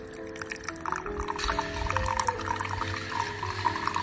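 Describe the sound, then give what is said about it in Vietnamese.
Brewed coffee poured from a brewer into a cup, a steady liquid stream running for about four seconds at moderate loudness, with no talk over it. “Sau khi pha cà phê xong thì chúng mình cùng rót ra cốc như thế này nhé.”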